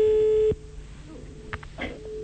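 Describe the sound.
A telephone tone sounds while someone is placing a call: a single steady electronic tone that cuts off after about half a second, leaving a quiet background with a few faint clicks.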